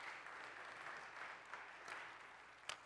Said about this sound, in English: Y'all give Him a round of applause for coming up.